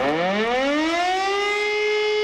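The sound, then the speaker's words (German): A civil defense siren sounds the all-clear during a nationwide warning-day test in Remscheid, Germany. Its loud, wailing tone climbs in pitch at the start, then holds steady and alone. “Um Punkt 11 Uhr geben die Sirenen bundesweit erstmal Entwarnung.”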